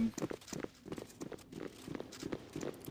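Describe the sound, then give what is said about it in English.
Footsteps climbing stairs in a video game, a steady run of many light thudding steps in an even rhythm, fairly quiet throughout. “And then I'm gonna take the stairs up.”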